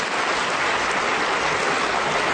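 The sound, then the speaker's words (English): Party conference delegates applaud in a dense, loud, steady wash of clapping that holds evenly from start to end, with no talk. “They cheered everything, didn't they, the delegates?”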